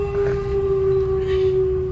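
A wolf howl sound effect plays during a tribal rite scene in a tabletop role-playing game: one long, steady mid-pitched tone with faint harmonics, held unbroken for about two seconds over a low rumbling bed.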